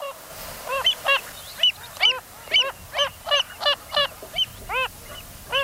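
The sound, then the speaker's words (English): Nasal, honking calls of a Wilson's phalarope, a spinning shorebird of salt lakes, repeated many times in a steady, evenly spaced series, clear and alone without voices. “And this is the call of that spinning bird of Salt Lakes, the Wilson's phalarope.”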